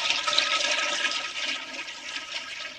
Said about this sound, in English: Do not put another thing down that toilet. Right. Okay. And you keep flushing it.